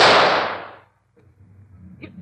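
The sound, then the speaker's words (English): A single gunshot in a radio drama, fired at an animal loose from its cage: a loud, sharp crack whose bright burst decays over nearly a second, followed by near silence and a few faint knocks. “Sahara's out of the cage. Shut her down. You're in her face. Stand back, Watson. I'm going to shoot.”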